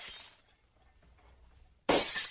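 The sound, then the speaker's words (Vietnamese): Glass shatters inside a house. A brief faint noise at the start gives way to near silence, then a sudden loud crash of breaking glass bursts in and keeps crackling and tinkling to the end. “thấy ở trong nhà truyền ra tiếng đổ vỡ thì chột dạ”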